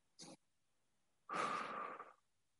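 Slow, calm breathing: a brief soft breath is followed about a second later by a longer airy exhale, faint and heard alone.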